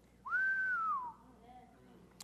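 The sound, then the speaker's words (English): Whistling in church: a single clear whistled note that glides up quickly, holds, then slowly falls away. It is faint and heard on its own, with no talk over it. “When anybody ever whistle in church? Can anyone out there whistle? Whistle. Oh, yeah, I got a few of y'all can whistle.”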